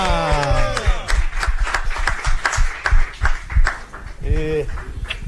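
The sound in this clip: Clapping welcoming a guest to a radio show studio, a handful of people beating out sharp, separate claps under animated talk, with voices at the start and again near the end.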